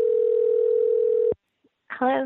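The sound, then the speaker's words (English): Telephone dial tone: a steady mid-pitched hum that cuts off abruptly, then a short silence before a voice begins to speak. “Let's see if we can get her on the phone right now.”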